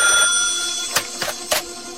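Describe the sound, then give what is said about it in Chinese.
A telephone in a room rings with a bright, steady electronic tone that gradually fades, followed by three short, sharp bursts, with no voices. “八号楼里，黄一彪房间的电话突然响了。”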